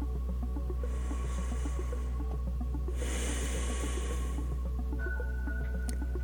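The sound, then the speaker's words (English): Slow, deliberate breathing in and out, heard as two soft, airy breaths over a steady low hum and a quiet tonal background. “notice your breathing. Slow it down. Breathe in and out.”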